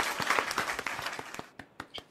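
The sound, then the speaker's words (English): A small, quiet round of applause on a live stream. Distinct claps first come in a quick cluster, then thin out into a few isolated claps as it dies away. “Give him a little round of applause.”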